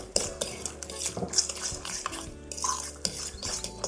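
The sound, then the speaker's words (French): A spoon stirs two tablespoons of thick crème fraîche into feta, making many quiet, quick scrapes and light clinks of metal against the dish in an uneven rhythm. “Je vais ajouter mes 2 cuillères à soupe de crème fraîche épaisse et d'une. Et de 2. Je mélange et j'essaye de ne pas trop écraser la feta.”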